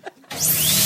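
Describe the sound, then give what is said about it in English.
A dentist's drill starts up. A brief scratchy lead-in gives way to a loud, steady, high-pitched whine with a faint upward glide, heard alone. “Oh, it's the sound of the dentist's drill.”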